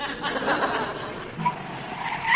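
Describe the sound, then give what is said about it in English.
A man's voice imitating a petrol pump: a continuous, noisy whirring hum with squealing, whining tones that grow louder toward the end. “I shall stick my finger in my ear and do my impression of a petrol pump.”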